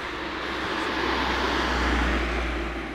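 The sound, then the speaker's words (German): Traffic passing by, heard as a steady low rumble with a broad hiss that swells slightly partway through and holds at an even level throughout. “Na, jetzt haben wir wieder Verkehr. Jetzt haben wir wieder Verkehr, ja.”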